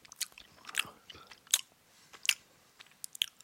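A yumberry-flavoured snack is bitten and chewed in several sharp, crisp crunches. They come at uneven intervals, with quieter mouth and chewing noises between them, close and fairly soft overall.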